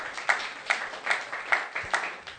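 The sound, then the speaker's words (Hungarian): Faint, steady rhythmic clapping comes from a church audience applauding its children's ministry leaders, each clap landing at an even beat across the short clip. “úgyhogy adjunk nekik is egy nagy tapsot, mert nagyszerű munkát végeznek.”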